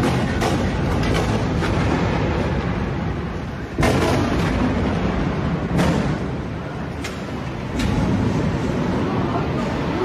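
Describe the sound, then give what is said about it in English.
Heavy bombardment explosions in Gaza: a few sharp booming blasts burst out of a constant loud, roaring rumble that fills the whole clip. “showing the world what it was like to live under Israel's relentless and, as you'll hear, terrifying bombardment”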